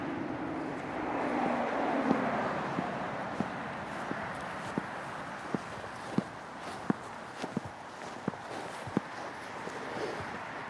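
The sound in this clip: Footsteps walk out to a roadside ditch, making steady, evenly spaced crunching steps. About a dozen clear treads fall at a regular walking pace over a soft background rumble.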